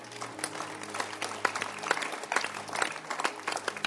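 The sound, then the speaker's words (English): An audience claps hands, producing many sharp, uneven claps that rise and dip in bursts at moderate loudness. “So, clap your hands for the book Art of Shepherding.”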